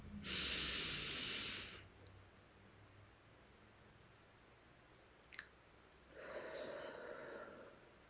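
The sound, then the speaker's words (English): Two long, soft, hissing deep breaths are taken during a guided breathing exercise. Each lasts about a second and a half, with a quiet pause and a couple of faint clicks between them. “take one deep breath into your heart with me right now.”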